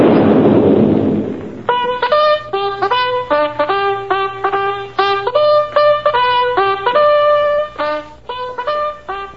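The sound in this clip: A sunset gun cannon at an army outpost fires one loud boom that rolls away over about a second, then a long brass melody of many clear notes follows.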